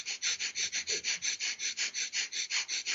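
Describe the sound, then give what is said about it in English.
Rapid Kapalabhati breathing pumps in and out through the nose in a fast, even rhythm of many short, airy pulses, about five per second, faint and steady throughout with no talk. “just really fast in and out to the nose, pumping my breath”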